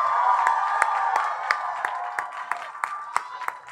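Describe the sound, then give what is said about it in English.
A standing ovation: an audience cheers and applauds in a continuous wash of crowd noise, with sharp clap accents recurring at regular intervals throughout. “A standing ovation.”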